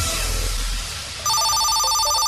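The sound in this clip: A telephone ringing for an incoming call: a short stretch of noise, then a bright, steady electronic trill starts abruptly and keeps ringing.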